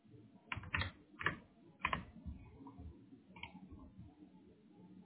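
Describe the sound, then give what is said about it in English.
Keystrokes on a computer keyboard, faint and uneven, with a few sharper clicks standing out early on, followed by softer, scattered tapping. “Okay, so try to type that. Type in A-L Powers, right, and then hit confirm signature.”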